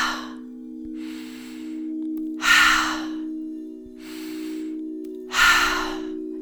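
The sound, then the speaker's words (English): Sharp breaths in through the nose alternate with forceful breaths out through the mouth during a breathing exercise. A few paired breaths come in a steady rhythm, the exhales louder and airier, over a constant low hum. “Inhaling sharply through the nose and exhaling sharply with intention through the mouth.”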